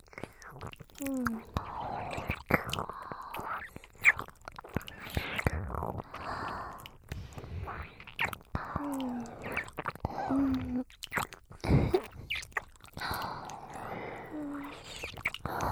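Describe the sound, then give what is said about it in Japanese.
ASMR ear-licking mouth sounds: close, wet clicks, smacks and slurps repeating unevenly throughout, soft and intimate, with a faint whispered voice in places. “この耳、私がいっぱいレロレロしてあげますから、気持ちよくなってくださいね。”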